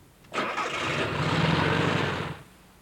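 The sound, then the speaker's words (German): A German motorcycle engine starts with a short burst from the starter, then settles into a steady low rumble for about two seconds before cutting off. “Ein Motorrad. Ein deutsches Motorrad. Hören Sie.”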